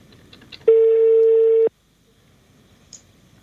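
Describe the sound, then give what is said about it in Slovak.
An outgoing telephone call begins with a single steady electronic tone that lasts about a second and then cuts off abruptly into near silence. A few faint clicks come before the tone, and a small blip follows it. “Tak, pome, voláme.”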